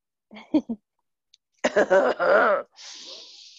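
Throat clearing from someone with a strong tickle in the throat: two short grunts, then a louder, longer harsh rasping burst that trails into a breathy hiss.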